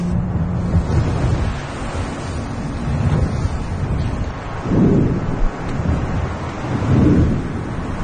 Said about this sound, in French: Là, ce que tu entends, c'est les coups de foudre. Le son en lui-même, s'il est extrêmement sec et bref, c'est que c'était un coup de foudre extrêmement puissant et proche.